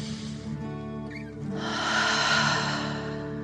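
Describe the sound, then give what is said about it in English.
A deep, slow breath, taken as a 'dragon breath' breathing exercise, swells into a soft airy hiss and then eases off, over a steady, sustained musical drone. “Deep dragon breath in and out.”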